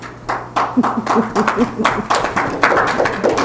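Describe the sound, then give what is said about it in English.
A small group at a meeting gives the staff a round of applause, uneven hand claps patting at a quick, irregular rhythm over a faint, steady low hum. “Round of applause, definitely, for our staff.”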